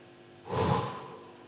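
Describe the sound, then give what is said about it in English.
One breath out, a single soft, airy exhale that swells and then tapers off over about a second, faint and alone with no talking. “Maybe you just need to breathe out.”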